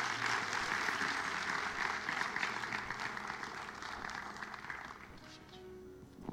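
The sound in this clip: Audience applause welcoming a guest pastor from Eastbrook Church, sustained dense clapping that holds steady for several seconds before thinning out near the end.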